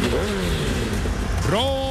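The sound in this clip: A motorcycle engine revs, loud and continuous, first as a steady drone and then as a sharp climb in pitch near the end. It serves as the sound of a motorcycle in an advert for spare parts.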